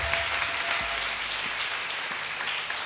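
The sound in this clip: Applause from a church audience during a worship service: dense, steady clapping that fills the whole stretch at an even level, with no voices heard over it.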